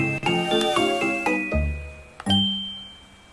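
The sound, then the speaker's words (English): Short chiming jingle that marks the start of the next day in a video game: a quick run of bell-like notes that step downward, then a brief pause and a final sustained ringing tone that fades out. “that's the next day music for Wake Up Caller.”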